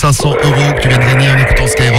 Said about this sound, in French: C'est vrai, quand tu le dis, c'est un bruit de scooter.